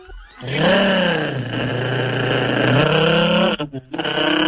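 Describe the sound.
A person's voice imitates a Renault car engine with a loud, buzzing, revving drone that holds and shifts in pitch for about three seconds, then sputters into a few choppy bursts.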